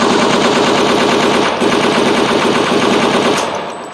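Rapid machine-gun fire: a loud, continuous burst of tightly spaced shots lasting nearly four seconds, easing slightly at the very end.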